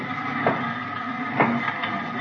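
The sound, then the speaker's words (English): A punched card sorting machine sorts police burglary record cards into slots, with a steady mechanical whir and rattle broken by a few louder clicks. “We'll set the machine here and let it sort the cards.”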